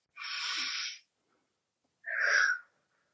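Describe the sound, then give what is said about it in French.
A deep breath in and out, a long airy inhale followed after a pause by a shorter, breathy exhale, both clear and close against silence. “on va simplement déjà prendre une grande inspiration, expiration.”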